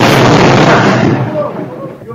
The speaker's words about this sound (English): boulder comes crashing through your living room and narrowly misses you by an inch, and I have audio of this, and I'm telling you, there's a trigger warning here when you hear this.